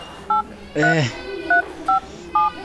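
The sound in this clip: Telephone keypad tones sound as four short, evenly pitched beeps while a number is dialed, with a brief voice sound between the first and second beeps.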